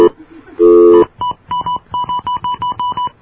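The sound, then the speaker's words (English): Telephone keypad dialing tones: a sustained steady tone, then a quick, even series of short beeps at a bright, fixed pitch, each one distinct. “Oops, I keep forgetting to dial 9.”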